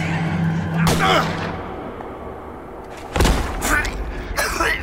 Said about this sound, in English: I didn't even feel the gun in my hand. Didn't even hear the discharge.